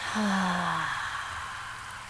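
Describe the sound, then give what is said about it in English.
A deep belly breath during a guided meditation, heard as a long, steady breathy rush that opens with a faint falling hum and slowly softens. “Take a deep, cleansing belly breath in through your nose and release.”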